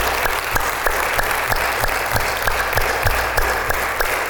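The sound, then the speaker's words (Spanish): A church audience applauding: loud, steady clapping with a regular, almost rhythmic pulse of claps, continuing evenly for about four seconds with no voices over it. “Vamos a darle más fuerte el aplauso al Señor.”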